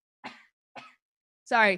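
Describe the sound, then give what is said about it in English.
Two short, sharp coughs from a person with something stuck in the throat, separated by silence, followed by a louder, brief voiced throat sound. “I have to say it every time I cough now. It's like, I swear I just have something stuck in my throat.”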